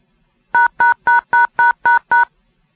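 A telephone auto-dialer sends DTMF tones to dial a seven-digit number: seven loud, identical-length dual-tone beeps, evenly spaced in a quick regular rhythm, with silence before and after.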